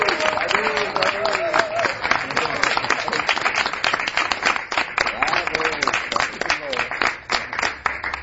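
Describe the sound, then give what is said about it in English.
Audience applause at a Hare Krishna gathering: dense, sustained clapping of many hands that continues steadily throughout, with a voice speaking over the early part and again near the end. “Let us please give a loving applause for our Bravo, Sadhu, Sadhu.”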